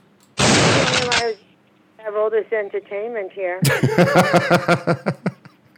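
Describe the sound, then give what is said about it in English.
A shotgun blast sound effect, one loud, sustained burst of noise that cuts off abruptly. A voice follows, then bursts of laughter. “Oh, he's still alive. Hold on, hold on. Let me get the old shotgun out here.”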